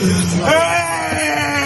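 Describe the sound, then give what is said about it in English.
A father wails over the body of his only son, a loud, sustained, tonal cry of grief with a strained, wavering pitch that lasts under two seconds. “His father is inconsolable, wailing over the body of his only son.”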